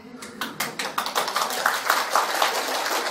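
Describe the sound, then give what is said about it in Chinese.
An audience at a talk claps their hands. A few separate claps come first, then the sound quickly thickens into brisk, continuous clapping from many people that stays fairly even to the end. “拍手表示大家愿意修了啊。”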